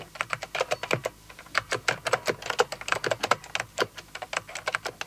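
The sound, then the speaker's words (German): Rapid typing on a computer keyboard, with many crisp key clicks in quick, irregular bursts and short pauses, moderately loud and with no voices. “Bei 220 bis 250 Anschlägen pro Minute spricht man von langsamem Schreiben.”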